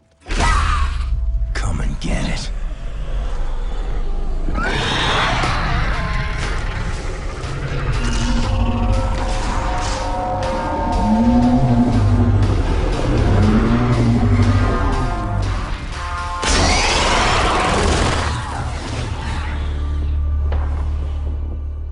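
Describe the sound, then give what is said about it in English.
Trailer soundtrack for the video game The Darkness 2: a dense, continuous mix of mechanical clanks, engine-like roars and deep rumbling, layered with tonal music and occasional voices. “that was the trailer for The Darkness 2. Yeah. Brilliant game.”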